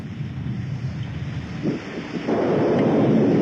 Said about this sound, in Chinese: 哎呀，山水下来了。